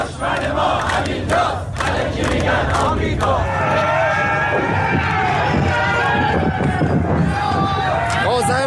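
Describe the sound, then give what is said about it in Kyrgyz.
Dozens of people at a protest in Tehran shout and chant together against Iran's supreme leader, Khamenei. The massed voices stay loud and sustained throughout. “Эркин Европа Азаттыгы радиосуна карапайым адамдар жиберген видеодо Тегеранда ондогон адам чогулуп, Ирандын жогорку руханий лидеринин атын атап, Хаменеиге өлүм деп кыйкырып жатканын көрүүгө болот.”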